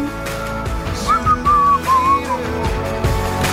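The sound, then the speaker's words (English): Someone whistles a short tune, a few wavering, sliding notes standing out clearly over a steady tonal background, fairly loud and with no talk. “I like the whistling.”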